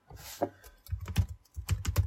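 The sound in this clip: Typing on a computer keyboard as a word is entered, with soft, irregular clusters of key clicks, a few short bursts separated by brief pauses, fairly faint.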